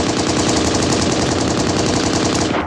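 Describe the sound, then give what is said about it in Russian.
A sustained burst of automatic rifle fire, loud and rapid, a dense string of shots running unbroken for over two seconds before cutting off. “Джаред Махони хладнокровно развернулся, поднял автомат и выпустил очередь прямо в лицо Притора Мелани Труа.”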